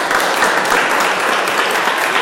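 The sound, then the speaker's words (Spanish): A crowd of neighbors applauds, dense overlapping clapping that stays loud and steady throughout without a pause. “Un aplauso para ellos.”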